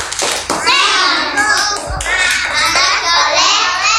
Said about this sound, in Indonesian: Sama-sama kita tepuk anak soleh.